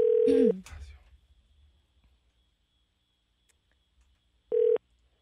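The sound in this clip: Telephone tones from a number being dialed for a prize call-in contest: a steady beep of about half a second, then quiet, then a second, shorter beep near the end.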